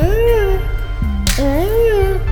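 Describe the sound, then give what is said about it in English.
An outdoor cat meows in reply to a morning greeting, two drawn-out, sing-song meows over a steady low hum. “The cat basically almost talks to us. We go, good morning, and it goes,”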